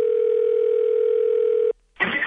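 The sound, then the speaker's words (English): A telephone dial tone plays while a call is being placed: one steady, even hum that cuts off abruptly, followed after a short gap by a brief burst of noise. “Let's get Andy on the phone. All right, well, hang on. She's available. Hang on. Okay, let's try her.”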